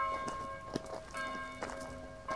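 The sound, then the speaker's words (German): Old abbey church bells at Val-Dieu ring faintly, their sustained, overlapping tones humming steadily with a few soft strikes. “werden wir an unserem letzten Ziel in Val-Dieu von den Glocken der alten Abteikirche empfangen.”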